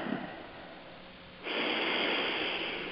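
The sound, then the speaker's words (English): A deep breath in and out during a guided nature meditation, a soft, airy inhale followed by a louder, longer, breathy exhale that holds steady to the end. “So just taking a few deep breaths in”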